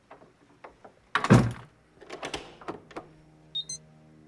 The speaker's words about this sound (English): Steve shuts the door in his face.